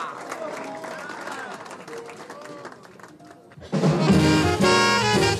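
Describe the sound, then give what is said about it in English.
Applause breaks out for jazz drummer Art Blakey coming to the bandstand, following a man's talk; a loud, full burst of crowd clapping starts near the end and holds steady. “And let's get together and bring Art Blakey to the bandstand with a great big round of applause. How about a big hand now for Art Blakey?”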